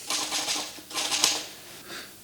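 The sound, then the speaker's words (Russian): Typewriter keys clatter as a scribbled manuscript is retyped in a large, uncomfortable room: faint rapid clusters of keystrokes come in uneven bursts with short pauses. “Я сижу в большой, неуютной комнате Лапшина, перестукивая на пишущей машинке ищирканную рукопись.”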